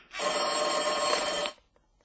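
A telephone ringing: one bright, trilling electronic ring lasting just over a second, loud and alone, then cutting off into near silence.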